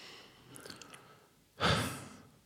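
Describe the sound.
A single audible breath, soft and airy, with a sharp onset that swells and then fades over under a second, preceded by a few fainter, quiet noises.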